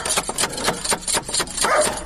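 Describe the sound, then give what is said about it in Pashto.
A fierce dog barks at a house as someone comes to knock on the door: many sharp, loud barks in a quick, uneven series, one after another with only brief gaps. “دا څه بد سپی لري”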